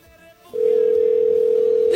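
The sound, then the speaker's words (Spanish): Telephone ringback tone of an unanswered call: a single steady, pure tone starts about a quarter of the way in and holds unbroken to the end, after a short stretch of faint low sound. “Vamos a ver si nos contesta. Híjole, qué suerte, ¿eh? Está sonando.”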